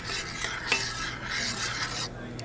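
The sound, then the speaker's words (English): A spoon stirs tea leaves, spices and water together in a pot for chai, making a continuous soft rasping scrape in repeated strokes with one sharper clink partway through. “Now we're stirring all the ingredients together.”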